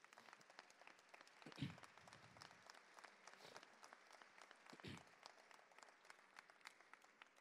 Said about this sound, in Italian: Io voglio ringraziare oggi anche l'interpretariato LIS della RAI, a cui veramente chiedo di fare un applauso